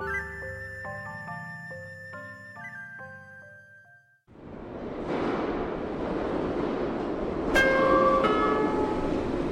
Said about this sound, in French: Le train en provenance de la cité de gauche entre en gare.